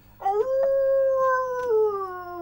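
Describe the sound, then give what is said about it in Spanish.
A wolf gives one long, sustained howl that swoops upward at the start, holds a steady tone, and slowly sinks toward the end, loud and alone with no talking. “eso no es un siberiano, ¡es un lobo eso!”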